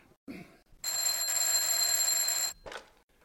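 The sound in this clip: Telephone at a duty officer's desk gives one sustained electric ring of bright, steady tones lasting under two seconds, with brief softer noises just before and after it.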